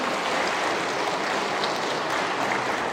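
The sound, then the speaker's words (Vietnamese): A church audience applauds at a parish Mass, a dense, continuous wash of clapping that holds an even loudness throughout with no pauses or voices. “Quý bà anh chị em có muốn vậy không? Có muốn vậy thì tự vỗ tay và ước muốn mình đấy chứ.”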